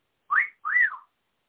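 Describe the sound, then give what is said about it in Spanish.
A person whistles at a woman: two quick whistled notes, each rising and then falling in pitch, with the second note longer and sweeping down further. No other sound is heard. “que alguien me explique cómo ese silbido tiene connotación sexual”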